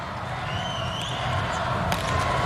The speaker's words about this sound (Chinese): 看莱昂替补上来发球，怎么去发？